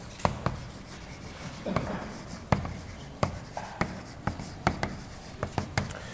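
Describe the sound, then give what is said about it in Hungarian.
Scratchy handwriting strokes as a matrix theorem is written out by hand: many short taps and scrapes in an uneven rhythm, moderately faint, with no talk. “Cayley-Hamilton tétel borzasztó egyszerű, úgyhogy azt most fel is írom.”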